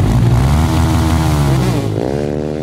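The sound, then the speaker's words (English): Loud, raspy engine roar from dirt bikes and illegal ATVs tearing up an avenue in the middle of the night. The droning rumble holds steady, then shifts pitch near the end. “The dirt bikes, the illegal ATVs that roar up 6th Avenue in the middle of the night and wake me up.”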